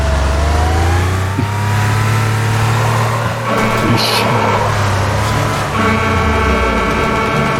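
Car driving in a video game driving level: a steady, loud engine drone with layered tones that shift in pitch as it revs, plus a brief sharper burst midway.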